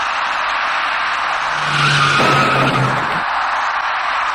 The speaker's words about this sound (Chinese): 那位电动自行车的骑车人跟这辆处于转弯中的出租车发生了相撞事故。